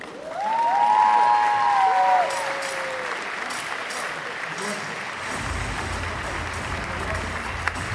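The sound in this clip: Applause from an audience greets a Marvel comics artist arriving at the comics area of a game show convention. The clapping is even and sustained for the whole stretch, louder at first and then settling to a steady level.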